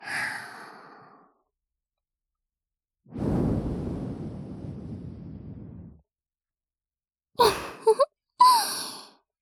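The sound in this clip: Breath blown into the listener's ear during an ear-cleaning roleplay: a soft airy puff, then a long drawn-out exhale, and finally a few short breathy gusts, with no talking.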